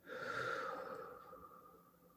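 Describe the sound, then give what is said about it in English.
A single deep, deliberate breath during a guided meditation, a soft airy rush that swells and then fades over about two seconds, quiet and on its own. “Now I want you to join me in taking three deep, intentional breaths. In and out.”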